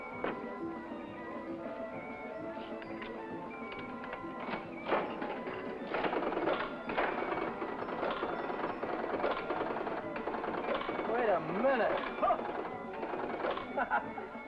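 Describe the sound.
A slot machine played in an old radio drama gives off steady mechanical whirring and clattering, with people talking over it.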